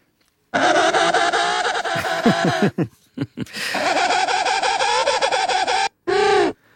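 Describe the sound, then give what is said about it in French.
A penguin gives loud, buzzy, dissonant braying calls: two long harmonic blasts separated by short stuttering notes, then a brief final burst. “On écoute le manchot.”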